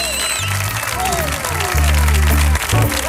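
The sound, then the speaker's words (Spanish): A studio audience applauds and cheers loudly, a broad wash of clapping that swells toward the end, with voices mixed in. “Hoy tenemos un publicazo que suena así de potente. Ve cómo suena este público de hoy.”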